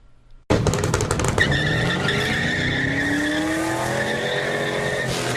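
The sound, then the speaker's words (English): A street-racing car skids with a loud, sustained tire screech that starts abruptly after a brief lull, mixed with engine roar and holding for several seconds on a road in Houghton at night. “Well, if you're on the wrong road at the wrong time of night, you'll see them. We're talking street racers who care more about the thrill than your safety.”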